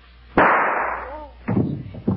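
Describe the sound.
A single sharp gunshot from a woman firing a handgun at herself, a loud crack followed by a long decaying roar, then a voice cries out in short, loud bursts.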